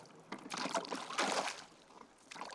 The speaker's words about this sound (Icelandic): Síðan hljóp hann niður á strönd, settist á bátinn sinn og réri eins langt og hann komst út á sjó.